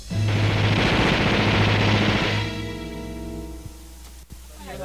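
A burst of gunfire in a dramatized shootout with drug traffickers: loud, dense, rattling shots sustained for about two seconds, then dropping away to a quieter tonal background.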